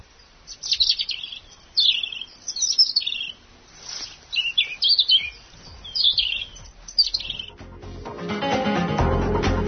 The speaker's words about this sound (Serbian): Dok Mile traži ugao za što bolje snimke, Mališa prilično ležerno pozira i ne prestaje da peva.